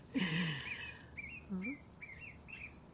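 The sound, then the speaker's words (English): Birds chirp in a fairly faint call: an opening longer, warbling note, then about four short, high tweets at an uneven pace. “I don't know what the birds are talking. Are they saying something?”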